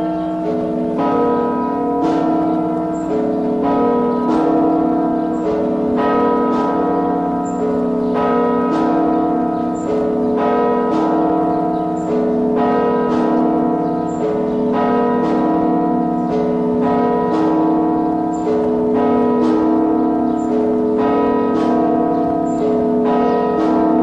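Church bells ring out at a Moscow convent in a sustained peal of many overlapping strikes, falling in a fairly regular rhythm throughout, loud and with no voices.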